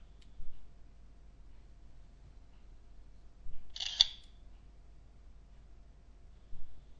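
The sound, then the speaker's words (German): A smartphone camera shutter fires once as a user photographs a rounded, curved surface: a single short, crisp click in otherwise near silence. “Foto erfolgreich aufgenommen. Übertrage Bild zur Verarbeitung.”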